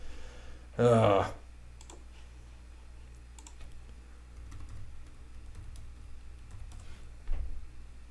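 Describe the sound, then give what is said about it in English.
Typing on a computer keyboard: faint, irregular keystroke clicks scattered over low background noise, with one brief louder burst near the start. “So give me a second. I got to type yours in, and I've got mine in our box, but I got to go back and forth.”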